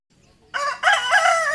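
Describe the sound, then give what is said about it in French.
A rooster crows in a village, one loud, bright, strongly harmonic call that starts abruptly after a near-silent moment, dips briefly, then carries on to the end. “Le coq chante.”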